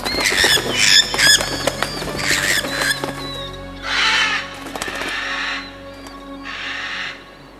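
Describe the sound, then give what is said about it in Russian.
Flocks of birds take flight with bursts of harsh cawing and squawking calls, followed by broader rushing bursts of noise, all without speech. “Все птицы в стаи собираются. Вон-а. Гляди, прямо косяками улетают.”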